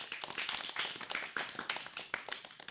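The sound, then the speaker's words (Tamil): Faint, uneven clapping rises from an audience applauding students after their dialogue at a school programme, many quick hand claps overlapping without a steady beat. “அனைவரும் கரவொளி எழுப்பி அவர்களுக்கு நமது வாழ்த்துக்களை தெரிவிப்போம்.”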